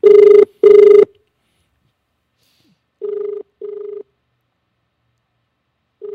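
A telephone rings as a radio show calls a councilor back. Two loud, bright rings are followed by a pause, then two softer, steadier ring tones and the start of another.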